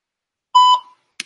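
A single electronic voicemail beep: one steady mid-pitched tone lasting under half a second, fading in a short tail and followed by a brief burst of sound.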